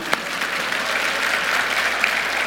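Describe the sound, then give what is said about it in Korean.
Audience applause at a live tech demo event, dense and even clapping from many hands that holds at a steady level throughout. “박수.”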